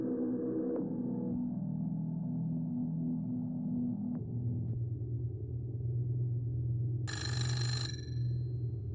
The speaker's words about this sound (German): Wer ruft denn um diese Zeit an? Wer kann das sein? Geh doch mal ran, Ava.